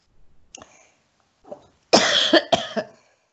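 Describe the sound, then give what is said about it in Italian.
A person coughs several times in a short burst: a couple of light coughs first, then a louder, harsh pair of rasping coughs. No talking is heard. “Scusate un attimo. Chi mi conosce, conosce anche la mia tosse.”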